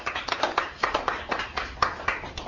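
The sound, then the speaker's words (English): Scattered applause from a small group of people clapping for others at a gathering: separate, sharp hand claps in an irregular rhythm, moderately loud and fairly thin rather than a dense roar. “Let's give them a big applause also.”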